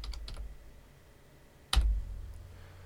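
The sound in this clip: Keys clack on a computer keyboard as a web address is typed: a quick burst of a few light clicks, a pause, then one louder keystroke with a soft thud.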